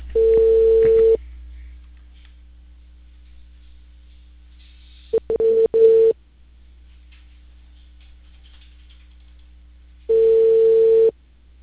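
Telephone ringback tone plays before a call transfers to voicemail: a steady mid-pitched tone in three bursts about five seconds apart, the middle one choppy and broken, with quiet low hum between them.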